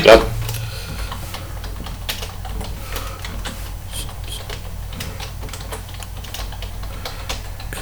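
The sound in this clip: Typing on a computer keyboard to enter an email address: many light, irregular key clicks and taps patter on steadily throughout, with a louder knock at the very start.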